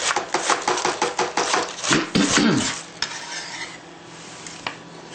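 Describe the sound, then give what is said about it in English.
A knife cuts an avocado into small pieces with a rapid run of many short chopping taps, then a brief scraping sweep, before the sound drops to near quiet with a few faint clicks. “You want me to cut the avocado in small pieces?”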